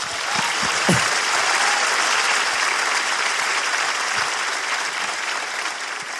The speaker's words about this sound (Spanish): Un aplauso para Crónico.